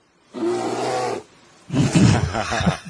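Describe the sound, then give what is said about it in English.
A voice imitates a bear with two loud, rough growling roars separated by a short pause. The first roar is steady, and the second is deeper and more ragged. “Bear sounds.”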